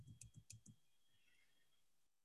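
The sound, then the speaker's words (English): Keyboard typing comes in a quick run of about five soft key clicks, then near silence over a faint steady tone, ending with one sharp click. All of it is quiet. “And it's nothing worse than typing when everybody's looking at you. Well, I don't know if you all can see me typing”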